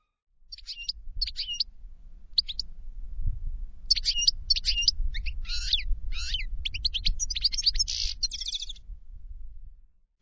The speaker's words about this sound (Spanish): Y el tercero es el jilguero.